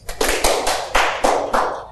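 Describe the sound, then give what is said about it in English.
A few scattered, uneven hand claps from an audience, sharp separate slaps spaced apart rather than unified applause. “One clap. Try it again.”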